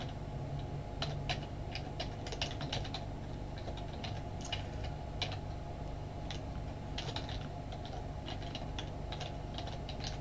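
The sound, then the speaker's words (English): Soft computer keyboard typing as student names are entered into a summary sheet: faint, irregular bursts of key clicks over a steady low hum, with no talk. “I've typed in a couple, I can type in a few others.”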